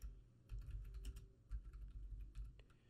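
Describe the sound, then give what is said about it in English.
Typing on a computer keyboard into a search bar: many quick, irregular key clicks that come in short bursts with brief pauses, at a fairly soft level. “It'd be helpful if I actually type into the search bar.”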